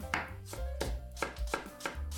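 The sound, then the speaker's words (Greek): A knife cuts Zagorin apples into thin slices or matchsticks, giving several crisp, evenly spaced chops in a steady rhythm with no voices. “Κόβουμε εξαιρετικά μήλα ζαγορίν σε λεπτές φέτες ή σπιρτόξυλα.”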